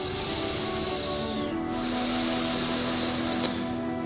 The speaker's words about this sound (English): Please breathe in a few times normally. In and out, huh?